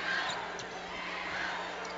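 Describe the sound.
A few faint thuds of a basketball being dribbled during a game, nearly buried under steady crowd noise.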